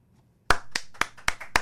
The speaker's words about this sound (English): We have doubled the size of our studio audience, wow, it sounds like. That's four hands.